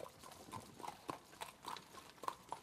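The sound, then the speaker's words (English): Horse hooves clip-clopping at a trot: faint, light knocks in a steady, regular rhythm, many beats in quick succession. “Trot. Trot, trot.”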